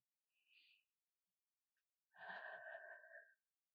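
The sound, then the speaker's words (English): Slow breath drawn in through the nose: a brief faint whistly sniff, then a longer wheezy, whistling inhale of just over a second, quiet and without talk. “Complete exhale and then a slow, slow inhale and breathe in through your nose.”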